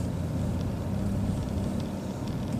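A car drives along a street in the residential Sunset district, producing a steady, low rumble of engine and tyre noise. The drone stays continuous and even, with no distinct events.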